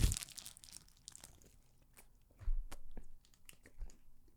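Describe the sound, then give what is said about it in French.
Crunchy bites of a fruit-flavoured treat during close-up ASMR tasting: a burst of crisp crunching at the start, then a few separate chewy crunches, with no talk. “Un petit peu d'ASMR pour vous autres. J'espère que ça vous donne faim, ce podcast-là. Euh, on, va, on va goûter.”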